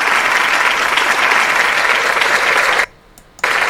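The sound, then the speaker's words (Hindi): Loud, dense crowd applause welcoming a guest, steady clapping that cuts off near the end, then a brief burst returns. “तालियों की गूंज में उन्हें खुश आमदेद कहेंगे।”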